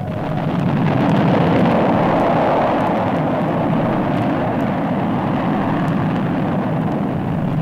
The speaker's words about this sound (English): Shuttle requests clearance for rocket ignitions.